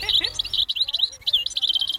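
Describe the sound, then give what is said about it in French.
European goldfinch song, a bright twittering of quick, high chirps delivered in a few lively bursts with short gaps between them. “Alors, c'est quoi cet oiseau? Cet oiseau est chardonneret élégant.”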